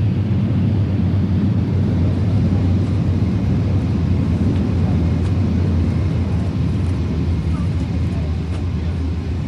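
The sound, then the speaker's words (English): Heavy roar of airliner engines in reverse thrust just after landing, a loud, broad, continuous rumble that holds steady from start to finish. “Reverse thrust on.”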